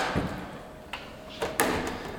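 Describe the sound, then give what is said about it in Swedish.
A door in a theater being opened and passed through: a few faint clicks and soft thuds from latch and handle, spaced irregularly over a low background. “Vi tar den närmsta dörren.”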